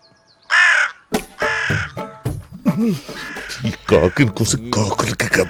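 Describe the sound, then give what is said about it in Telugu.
A crow caws in a couple of harsh, rasping calls, followed by someone talking. “చూడండి అయ్యా, మనం ఎంత insult చేసినా స్టిల్ నాకేదో కమ్యూనికేట్ చేయాలని ఎంత కృషి చేస్తుందో ఈ కాకి. సారీ, ఈ కాకి గారు.”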